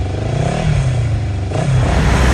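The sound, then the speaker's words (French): A motorcycle pulls away as the traffic light turns green and heads onto a main city avenue. A steady, rough engine rumble with low throbbing tones, its pitch stepping up partway through as it accelerates. “Et il s'engouffre aussitôt dans l'avenue principale. Sur sa moto, il profite de la vue, unique sur la ville.”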